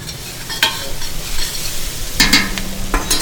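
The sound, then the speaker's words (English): Onions and rosemary sweat in a pan, giving a steady, soft sizzle broken by a few sharper scraping strokes as the mixture is stirred, with no talking. “You just kind of cook them so that the liquid starts coming out of the onions.”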